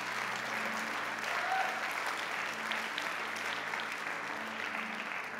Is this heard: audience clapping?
yes